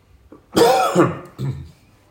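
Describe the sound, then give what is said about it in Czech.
A man coughs: a harsh, throaty burst that fades, then a shorter second cough, with no talk around it. “A toto zakašlání uvedlo přepichovou zónu. Myslel jsem, že to vystřihnu, teď ho tam musím nechat, ale dobře, já jsem si zakašlal”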